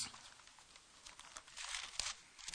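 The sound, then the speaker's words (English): Thin Bible pages rustle as they are turned, with a few soft, papery crinkles and swishes that grow a little more active toward the end and stay faint overall. “I'm having a hard time turning pages these days.”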